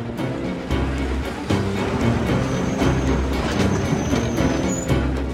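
A tram rolls along rails with a steady low rumble and hum, broken by repeated clacks of the wheels and a faint high squeal midway.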